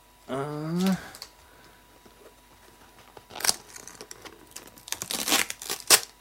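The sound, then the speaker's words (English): Packing tape is torn open on the side of a taped black box: bursts of crisp ripping and crinkling, with a short vocal sound at the start and a busier stretch of tearing near the end. “now this is a black box. Let me open the side of that. It's taped.”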